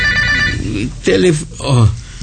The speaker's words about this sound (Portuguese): O telefone, Mário.